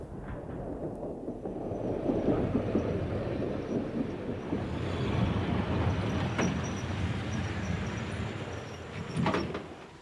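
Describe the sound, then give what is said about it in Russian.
Train number 2121-B pulls into a terminal station on New Year's Eve night, a steady low rumble with a few sharp clanks, with no voices. “Поезд номер 2121-Би прибывает на конечную станцию.”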